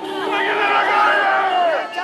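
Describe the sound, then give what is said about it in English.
A boisterous street crowd in Santiago, Chile, chants in unison at a rally urging rejection of the country's draft constitution. Many loud voices surge and hold, then briefly dip near the end. “In the streets of Santiago, a boisterous crowd waves Chilean flags and banners that say rechazo.”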